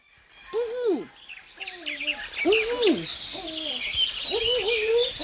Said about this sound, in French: Oh, quel joli petit oisillon. Oh, qu'il est beau.